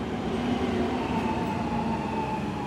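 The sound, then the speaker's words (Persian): Steady, loud rumble of a metro train arriving at the Enqelab-e Eslami Square station. A dense low roar and a faint high whine hold constant throughout, with no voices. “قطار مترو بالاخره رسید به ایستگاه میدان انقلاب اسلامی. درها باز شد”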